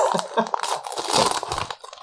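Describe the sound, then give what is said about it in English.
Crinkling, crunching wrapping paper as a present holding a boxed video game is unwrapped: dense, irregular rustles and crackles in quick succession, fairly loud and close throughout. “So, I'm opening the present, people, if you can't hear. Listen. It's ASMR.”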